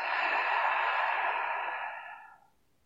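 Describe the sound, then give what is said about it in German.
One long, deep breath out through the mouth comes as a steady, airy rush that slowly fades away over a couple of seconds. “Atme nochmals tief durch die Nase ein und durch den Mund aus.”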